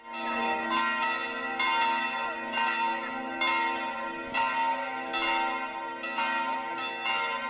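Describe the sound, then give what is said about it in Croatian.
Bells of a Serbian Orthodox church peal to call worshippers to a hierarchical liturgy on the feast of the Transfiguration, many overlapping metallic strikes over a sustained ringing hum, steady and fairly loud, without voices. “Zvona sa hrama Svetog Petra i Pavla pozvala su na svetu arhijerejsku liturgiju”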